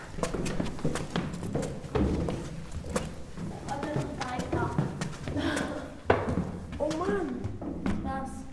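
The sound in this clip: Footsteps climb a spiral staircase inside a stone tower, making steady dull thuds about once a second while people talk.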